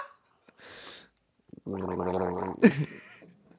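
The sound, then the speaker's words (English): A person gargles a Madagascar vanilla drink: a short breathy hiss, then about a second of bubbling, throaty gargle, ending in a brief wet splutter. “Now I gotta gargle some.”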